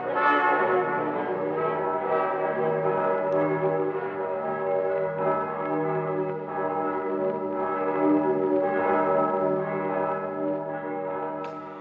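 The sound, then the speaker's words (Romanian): Church bells ring at noon beside a monastery, overlapping resonant tones sustaining and blending into a continuous, steady peal with no voices. “Clopotele bat ora nămiezii.”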